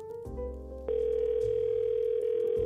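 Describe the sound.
A telephone dial tone sounds while a call is being placed. A short, lower tone pattern gives way to a loud, steady continuous tone about a second in, with a brief shift near the end and no voices.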